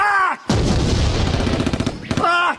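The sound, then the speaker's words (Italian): Gunfire erupts in a wartime scene where a soldier is shot in the foot: a dense, crackling volley of rapid shots lasting nearly two seconds, framed by shouting voices just before and after. “Mi hanno sparato a un piede!”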